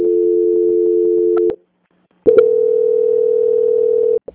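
A telephone transfer tone on a bank call, heard while the caller is held for transfer to the quality department: a steady mid-pitched tone for about a second and a half, a short silence, then the same steady tone for nearly two seconds.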